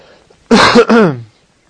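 A loud, harsh two-part cough from a person suffering from a cold, two rough voiced bursts close together with a short break between them, then quiet.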